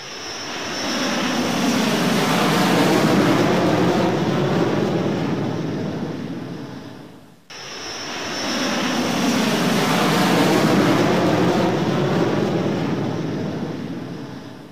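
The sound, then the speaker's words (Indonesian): An airplane flies past in two loud, sustained roaring passes. Each one swells up, holds steady and fades, with a brief dip between them. No voices are heard. “sekarang coba kalian tirukan suara pesawat terbang sambil menirukan gerakan terbang.”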